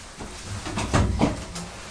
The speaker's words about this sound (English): I think Mummy will just go and close the bedroom door.